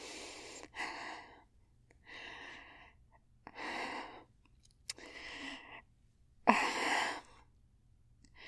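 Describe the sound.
Deep, slow breaths taken to calm down: five long breaths, evenly spaced, rising and fading in a steady rhythm with quiet pauses between. No talking.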